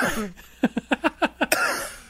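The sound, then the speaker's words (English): A dry cough caused by dust comes as about seven short, sharp bursts in quick succession, with a person talking just before and after. “It's a little dust cough.”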